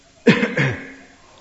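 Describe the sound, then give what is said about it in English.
A person coughs twice in quick succession. Both coughs are short and throaty, and the second trails off into quiet. “and now I'm coughing.”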